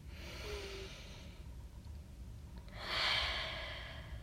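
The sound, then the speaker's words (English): A slow, deep breath during a guided meditation: a soft, airy inhale followed by a louder, breathy exhale, heard alone. “Deep breath in and out. Again, deep breath in”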